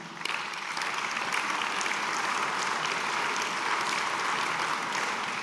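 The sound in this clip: Applause rings through the hall during a speech, a sustained, evenly loud patter of many people clapping that continues unbroken for several seconds with no voice over it.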